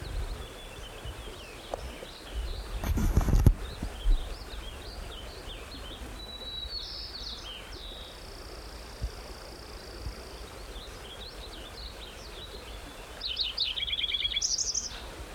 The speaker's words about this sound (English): white crown sparrow in there.